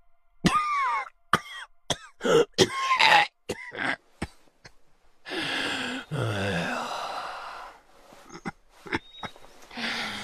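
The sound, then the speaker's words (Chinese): A man in an audio drama has an angry coughing fit: many sharp, hoarse coughs in quick bursts, then longer wheezing, gasping breaths as he recovers, with a few more coughs at the end. “魏德气得直咳嗽，好不容易顺过来气”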